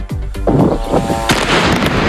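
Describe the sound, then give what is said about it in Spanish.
Gunfire exchanged at night in Lebanon between two armed sides: several loud, sharp reports with booming tails, some following in quick succession, with no voices. “Este es el sonido de lo que ha pasado esta noche en el Líbano. Ha habido intercambio de fuego entre las dos partes, entre Hezbollah e Israel.”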